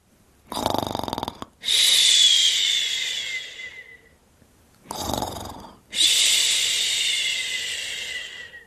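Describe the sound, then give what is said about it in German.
A child sleeping deeply in his bedroom with a blanket pulled up to his nose snores in two full cycles, each a rough, snorting inhale followed by a long, whistling, hissy exhale that fades out. “Nun sieht Tami, wer hier solche Geräusche macht. Es ist Lenny. Mit der Decke bis unter die Nase schläft er noch, tief und fest.”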